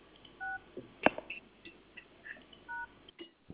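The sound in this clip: Touch-tone keypad beeps dial a call transfer on a cafe reservation phone line: two short, steady dual-tone bursts spaced apart, with sharp clicks and faint line noise between them.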